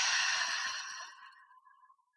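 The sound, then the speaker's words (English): A deep breath during a guided breathing exercise: a soft, airy exhale that gradually tapers off into silence. “And we'll take one final breath in together on the inhale, puffing up our bellies. And on the exhale, we're going to think of sharing that kind thought outward.”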